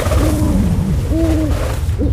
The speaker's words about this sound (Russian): Кощей свою верную прислужницу сову послал. Ой, она у меня из рук фонарик вырвала.